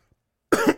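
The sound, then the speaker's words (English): A person coughs with something stuck in the throat: a single short, harsh burst with a double pulse, loud and alone after near silence. “I got something stuck in my throat. My bad.”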